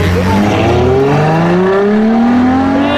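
A stolen car's engine revs hard as it drives away, its pitch rising steadily while the engine stays loud and continuous throughout.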